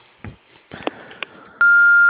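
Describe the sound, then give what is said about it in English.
An answering machine tone before a message is recorded: a few faint clicks and bumps, then a single loud, steady, high beep that holds to the end. “If you would please leave your name and your phone number and a brief message after the tone”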